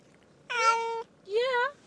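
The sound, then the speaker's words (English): Two clear meows from a cat that has just come home after eight days away without eating. Each meow is a drawn-out, tonal call of about half a second, with a short pause between them. “Yes, meow.”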